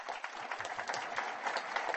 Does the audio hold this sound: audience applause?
yes